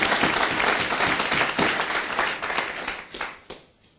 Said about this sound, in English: Come, let's give the Lord a good hand, please.